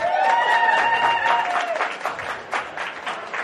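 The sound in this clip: Audience applause rings out for a chef welcomed back at a food and whiskey event. Steady clapping starts under a few cheering whoops, then thins to scattered claps.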